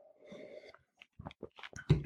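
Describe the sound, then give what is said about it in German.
A sip of hoppy Märzen-style beer: faint wet slurping and a few soft mouth clicks, ending in one louder, short gulp. “Boah, ich nehme mal einen Schluck, oder?”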